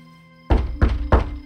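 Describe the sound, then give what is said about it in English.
A hand pounds heavily three times, each a dull, low thud at an even pace. The blows fall after a quiet stretch with a faint steady hum beneath. “I pounded until I thought my hand might split open, then switched to the other hand.”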